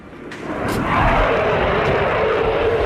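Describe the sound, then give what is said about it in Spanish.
Four Eurofighter combat jets of the Spanish military roar overhead during a parade, trailing the national flag's colours in the air. A broad, loud rushing rumble swells over the first second, then holds steady and powerful. “como cuando los cuatro Eurofighter, el avión de combate del ejército español, han pintado en el aire la bandera nacional.”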